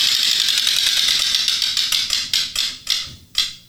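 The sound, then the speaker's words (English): A prize wheel with 18 spaces being spun: a rapid ratcheting tick of clicks that gradually slows to a few sharp, widely spaced clicks as the wheel comes to rest. “We have 18 spaces on the wheel that I'm going to spin.”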